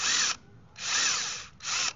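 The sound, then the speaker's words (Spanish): A power drill with a bit bores a concentric hole into a broken 6 mm screw to extract it. Three loud, steady high-pitched whining bursts are separated by short pauses, the middle burst the longest. “Con el taladro y una broca, vamos a hacer una perforación concéntrica al tornillo reventado.”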